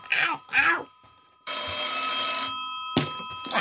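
A telephone bell rings in a bicycle shop: one long, bright, buzzy ring, then a second ring after a short pause. A few brief sounds come before the first ring.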